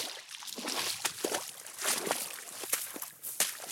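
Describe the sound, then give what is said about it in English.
Footsteps slosh through a little pond in a salt marsh among dead trees, a few soft splashing steps spread irregularly, faint and alone. “Right now, I'm walking across a little pond.”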